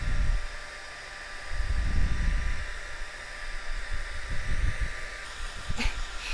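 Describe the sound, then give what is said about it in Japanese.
A hair dryer blows steadily on a child's hair, a constant airy hiss broken by a few low, rumbling surges of airflow as the dryer is moved. “じゃあ、どんどん乾かしていくね。”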